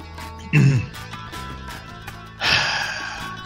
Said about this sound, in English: clearing the throat.